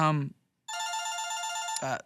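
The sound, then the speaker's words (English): A single electronic telephone ring signals an incoming call on a call-in phone line: a steady, bright, high tone that holds for about a second, with talk just before and right after it. “I think what's that we got here? I think we're getting a call in on the Preacher and the Piano Man phone line.”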